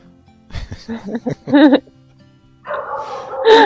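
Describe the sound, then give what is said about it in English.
A dog barks in two loud bursts of quick barks and yips, with a short pause between them. “Your dog has bad timing. He like just, yes, he barks after the calls.”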